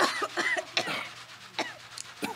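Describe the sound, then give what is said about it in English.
Coughing in dusty air thrown up by a coal train: a few short, harsh coughs spread irregularly over the moment, with a low steady hum underneath. “Stop coughing.”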